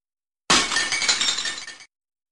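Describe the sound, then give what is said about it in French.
A glass window smashes under a blow from a makeshift pickaxe made of a branch, a long stone and ivy. One loud, bright shatter is followed by about a second of tinkling, clinking shards before it stops abruptly. “Ils vont chercher une branche, ils prennent une longue pierre et du lierre, et construisent une pioche, et ils cassent la vitre.”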